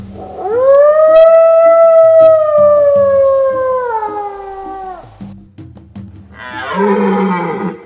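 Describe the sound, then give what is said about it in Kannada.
A barking deer cries like a frightened dog: one long, sustained howling call that slowly sinks in pitch over several seconds, then a shorter, harsher call near the end. “ಬೊಗಳು ಹುಲ್ಲೆಯ ಅಳು ಹೆದರಿದ ನಾಯಿಯಂತೆ.”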